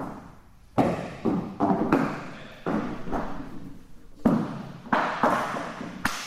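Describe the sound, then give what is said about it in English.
Fire twirling sticks land on the floor as a class of students drop them about a metre in front of themselves during a safety drill, making many irregular, fairly loud thuds and clatters in quick succession. “The class is testing safety methods here. Each student is dropping their sticks to the floor in an imaginary spot about a metre in front of them.”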